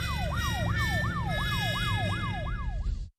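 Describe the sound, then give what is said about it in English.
A police car siren on a Washington, D.C. street yelps in fast, repeating up-and-down sweeps, about eight cycles, loud and steady over low traffic rumble before cutting off abruptly. “What's that sound? That, Anna, is the police.”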